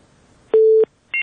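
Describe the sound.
Telephone busy tone after a call is cut off: one steady, low-pitched tone lasting about a third of a second, then after a short gap a brief, higher beep, with no voices.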